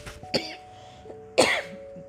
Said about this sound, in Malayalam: നല്ല ചുമ വരുന്നുണ്ട് കേട്ടോ.